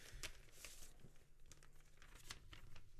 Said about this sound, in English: He is literally opening an envelope. This is great. Crinkly hands. Really crinkly hands.